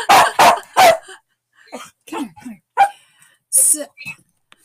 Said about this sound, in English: You'll have to excuse my dog. Hold on a second.